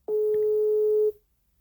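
A telephone ringback tone sounds while a call is placed to someone's mother: one steady, mid-pitched tone held for about a second, then silence.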